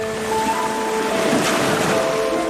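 Tide waves washing over a sandy beach make a steady, loud rush of surf and moving water that swells slightly midway, with no voices.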